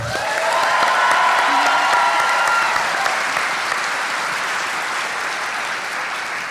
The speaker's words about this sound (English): I applaud you, and so are they.